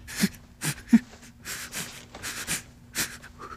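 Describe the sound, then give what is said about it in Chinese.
Deep, heavy breathing from a person in pain being coached to relax, a series of uneven, sniffly inhales and exhales, some with a slight wheeze, rising and falling at a slow, irregular pace. “你放松就不痛，关键是你要尽可能的放松。深呼吸，深呼吸，”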